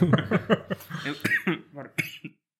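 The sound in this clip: A quick run of many coughs, sharp hacking bursts that weaken and space out toward the end before stopping.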